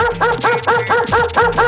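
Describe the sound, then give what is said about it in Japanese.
A dog barks in a rapid, evenly spaced series of sharp, loud yaps that keep the same steady rhythm from start to finish, with no voices over them. “向こうからなんか走ってくる。すごい勢いっす。 なんだありゃ、犬か。”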